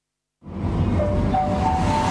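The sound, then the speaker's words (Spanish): A metro train arrives: after a short silence, a low rumbling roar starts abruptly and holds steady, while a thin electric whine steps upward in pitch. “El metro que llega.”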